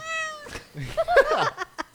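A cat meows: a clear, high harmonic meow at the start, then several more irregular meows and short cries.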